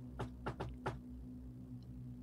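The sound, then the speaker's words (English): Knocking on a door: four faint raps in quick, slightly uneven rhythm, followed by quiet with only a steady low hum underneath. “All right, I give the door a knock.”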